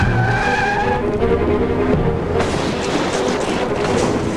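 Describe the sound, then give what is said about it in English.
A Cherokee shifts into reverse and plows through a fence gate while escaping a pickup. A steady engine drone leads into a harsh, noisy burst of skidding and crashing that fills the second half. “shifts into reverse and plows through the fence gate.”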